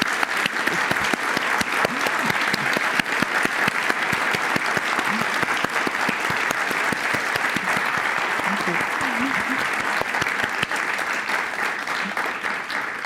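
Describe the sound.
Sustained audience applause at a talk, dense, rapid clapping from many hands that holds at a steady, strong level for about thirteen seconds without a break.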